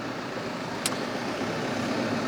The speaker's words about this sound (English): let's wait for the tractor maybe to go by